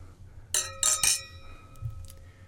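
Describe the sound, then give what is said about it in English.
Wine glasses clink in a toast at a wine tasting: three quick, bright chinks in close succession, each leaving a brief high ring, followed by near quiet. “So we should cheers here.”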